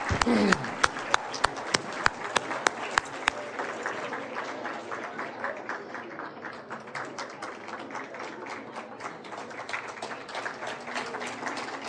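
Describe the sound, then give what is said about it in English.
An audience applauds to welcome a pastor at a farewell luncheon. A few sharp, separate claps open, then they merge into steady, dense clapping that carries on to the end. “please put your hands together with me right now and welcome the man of the hour to give his parting shot, Pastor Allan Randolph Lee. Please welcome him.”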